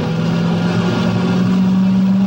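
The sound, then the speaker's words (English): A car engine roaring as the car is shifted into drive and floored, giving a loud, continuous drone with a steady low hum throughout and no break. “Then slams the transmission into drive and floors the accelerator.”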